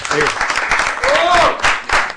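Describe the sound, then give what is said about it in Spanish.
Audience applause for a musician at a live music gathering: a steady patter of clapping for about two seconds, with brief voices mixed in. “Un aplauso para el maestro.”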